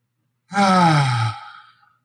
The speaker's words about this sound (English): So let's close our eyes. Let's take a big, deep breath.